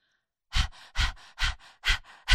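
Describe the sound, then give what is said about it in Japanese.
A person imitates a dog's panting with five rhythmic, breathy bursts at an even pace. Each sharp exhale is followed by a softer trailing breath, and no one speaks. “一緒に犬の呼吸を真似して、吐いて吸って吐いて吸って”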